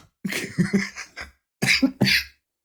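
A smoker's cough: a harsh fit of several rough coughs, a short pause, then two more hacking coughs, loud and dry.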